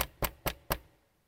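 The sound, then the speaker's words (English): Four sharp knocks on a door come in quick, even succession. Each is a short, hard rap that dies away fast, and the sound is alone with no voices. “And just as Job takes a breath, a knock on the door.”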